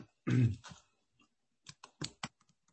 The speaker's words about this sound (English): I'm just going to type here a little sentence.